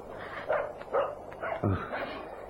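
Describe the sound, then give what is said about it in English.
A small dog barks in a few short, sharp yips spread across the moment, fairly faint, with a single louder bark near the end over a low background. “It's a dog. A little dog barking.”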